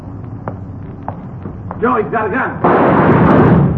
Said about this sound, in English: I saw him pull a gun, thought sure he got you. Well, he didn't miss by much.